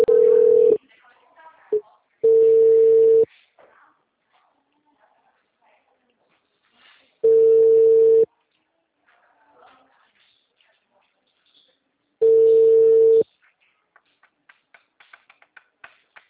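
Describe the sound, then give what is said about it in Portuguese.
Telephone tone after a dropped call: four steady, mid-pitched beeps of about a second each at uneven intervals, with near silence and a few faint clicks between them. “a ligação caiu. Desculpa, caiu, viu?”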